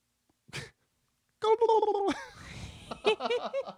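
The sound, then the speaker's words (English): A person imitates a turkey gobble with a loud, gargling, warbling burst of rapid throaty pulses, preceded by a short quiet vocal sound. “Make a turkey noise.”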